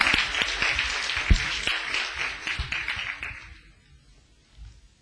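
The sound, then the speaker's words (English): A church audience applauds: many sharp, overlapping claps form a lively burst that thins out and fades to near silence before the end. “Put your hands together. Let me welcome my brother.”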